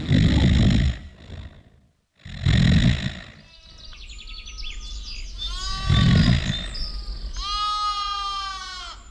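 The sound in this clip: A flock of sheep bleating: many wavering, overlapping bleats at varied pitches follow one another, mixed with loud bursts of broad rumbling noise.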